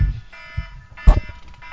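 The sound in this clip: A phone alarm goes off with a steady electronic buzzing tone that sounds for just over a second, along with a few low thumps.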